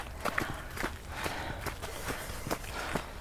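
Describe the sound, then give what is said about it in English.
Running footsteps outdoors on a hot day, in shade among trees: an even, quick rhythm of soft thuds, about two per second, over steady background noise. “Once you run in small speed, yeah, okay, keep straight, straight ahead.”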